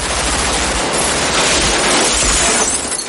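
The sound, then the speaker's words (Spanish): Gunfire crackles in a film shootout as police and armed robbers exchange fire on a street, a loud, relentless wall of rapid overlapping shots with no pause. “Un policía dispara oculto tras una esquina y Michael le responde. Drake avanza hasta otra a la que dispara Neil.”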